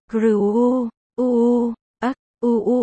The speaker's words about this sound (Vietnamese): Những tiếng rên ư hử vẫn vang lên không ngừng. Không lớn nhưng dai dẳng.